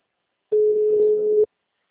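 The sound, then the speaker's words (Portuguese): Ringback tone of an outgoing phone call: a single steady mid-pitched tone lasting about one second, alone, with silence before and after. “Tô ligando, Arnaldo. A outra não atendeu.”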